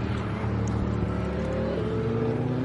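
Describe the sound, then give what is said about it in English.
A truck drives off a race circuit with a continuous engine rumble, steady and moderately loud throughout, without a distinct rise or pass. “truck pulling off the circuit there, disturbing my thought pattern there for a second.”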